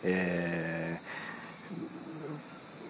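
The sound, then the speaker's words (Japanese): Cicadas chirp in lingering late-summer heat, making a continuous shrill, high buzzing drone that stays steady throughout without breaks. A low tonal hum sounds briefly at the start. “残暑厳しきおり、セミもね、こんなに一生懸命鳴いてますけども”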